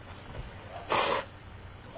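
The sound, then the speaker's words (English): A single sneeze bursts out during a sermon: one short, breathy, hissing blast lasting about a third of a second, rising clearly above an otherwise quiet, low background hum. “Pardon me, don't know where that sneezing is coming from.”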